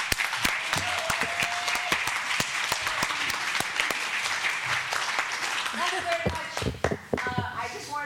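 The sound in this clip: An audience applauds to welcome a performer to a music-and-chat presentation. Dense, steady clapping fills the whole stretch, with a few raised calls and voices in the crowd.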